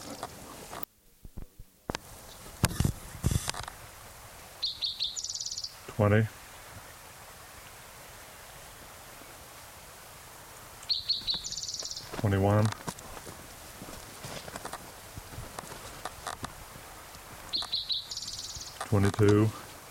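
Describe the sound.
A male bird sings normal clang trills in three short bouts spaced several seconds apart. Each bout is a quick, bright, high-pitched trill with a few lower notes, set against a quiet background.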